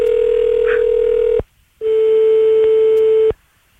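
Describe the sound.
Ringback tone on a phone line while a call is redialed: two steady, clear electronic tones of about one and a half seconds each, separated by a short silence.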